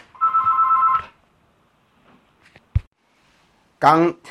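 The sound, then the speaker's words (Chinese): A telephone rings once with a steady electronic buzzing tone of about a second, followed by a few faint clicks and then a short burst of speech. “刚才讲到说哎、欸、有关于通告这件事情电话就响了”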